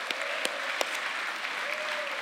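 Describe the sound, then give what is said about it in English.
Audience applause for family members introduced at a gathering: steady, even clapping from many hands that holds at a constant level throughout. “yes, you can give her a big hand.”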